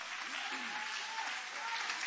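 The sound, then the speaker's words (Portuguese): A church audience applauding during a worship service, with dense, steady clapping that runs without a break and stays fairly faint throughout. “guarda a Bíblia e podem aplaudir o nome de Jesus com alegria.”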